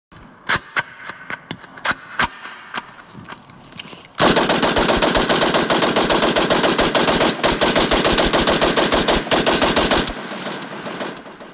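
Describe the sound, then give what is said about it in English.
Gunfire: a few separate sharp shots open, then a long continuous burst of rapid automatic fire roars loudly for several seconds before easing off. “please shoot all these fools.”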